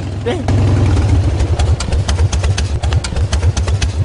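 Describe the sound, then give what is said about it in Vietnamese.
A motorbike engine idling as it arrives, a loud, rapid, low chugging that stays steady throughout, with voices partly over it. “Thế đây, xe máy đến rồi.”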